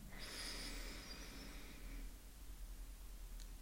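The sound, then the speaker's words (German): A slow, deep inhale through the nose into a cupped hand during a breathing exercise: a soft, airy hiss lasting about two seconds before fading, faint over a steady low hum. “Und dann atme wirklich einmal tief 5 Sekunden lang in deine Hand ein.”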